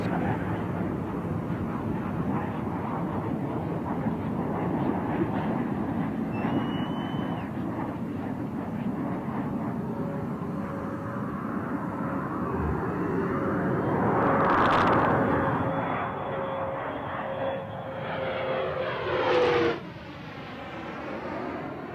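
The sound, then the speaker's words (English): Space shuttle Discovery rolls out on runway 22 at Edwards Air Force Base after landing, producing a loud, steady, broad roar with a thin whine that slowly falls in pitch. The roar swells briefly near the end, with no talk. “Discovery rolling out on runway 22 at Edwards Air Force Base, California, wrapping up a 5.7 million mile mission to resupply and fortify the International Space Station.”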